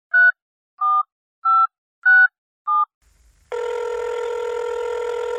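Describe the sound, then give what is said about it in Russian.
A telephone being dialed: five short, evenly spaced two-tone keypad beeps, then a loud, steady, continuous tone. “Мама позвонила месье Зашейдыркину.”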